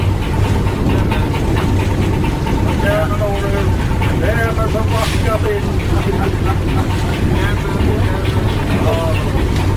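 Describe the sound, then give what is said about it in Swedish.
A boat named Arnafjord chugs in toward the quay at Atløy, its engine a steady low drone that runs throughout beneath people talking. “Och här kommer Arnafjord. Tuffande. Och ska pröva att lägga in till Atløy.”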